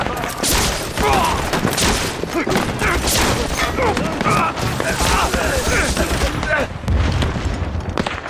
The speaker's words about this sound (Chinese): 机枪手准备。